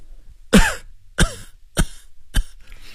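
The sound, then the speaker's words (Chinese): A sick patient coughing repeatedly: four harsh, separate coughs at a steady pace, the first the strongest and the later ones slightly shorter, with no talk around them. “病人因为说得太猛，止不住连续咳嗽一阵。”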